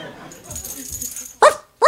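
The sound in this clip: Two sharp, loud barks from a dog burst out one after the other near the end, following a stretch of quieter shuffling sounds.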